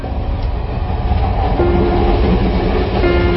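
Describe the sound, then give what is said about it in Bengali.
Loud, steady rumble of a train running on rails, heard from inside a nearly empty passenger carriage. The dense, continuous low roar holds even throughout, with a faint sustained tone joining partway through. “Ticket নিয়ে 9:45 ট্রেনে উঠল ওরা। সাদাতের বগিটা প্রায় খালি।”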